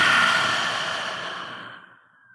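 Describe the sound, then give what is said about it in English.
A long, audible breath is let out during a guided relaxation exercise. It is a soft, airy rush that fades slowly over about two seconds and ends in a faint, thin whistle. “Inhale. And exhale, relax.”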